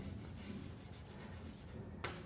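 Writing on a board during a lecture: a steady, faint rubbing scrape that runs throughout, ending with a sharper tap near the end.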